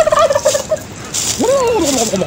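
A turkey gobbles in a children's tale: a fast warbling call, then after a brief gap a louder throaty gobble that rises and falls in pitch.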